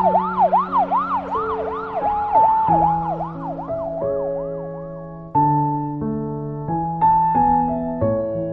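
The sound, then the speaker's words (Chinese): A police car siren wails as the car speeds out of the city police bureau toward a district. Many rapid, repeating rise-and-fall sweeps are heard over sustained tones, followed by steadier stepped tones. “一辆警车驶出市局之后，向文昭区的方向一路疾驰。”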